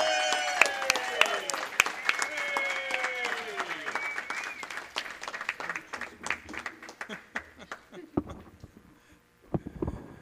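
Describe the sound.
Audience applause welcomes a speaker with sustained, loud clapping from a crowd. Voices rise over it early on, and the applause thins out and breaks off near the end.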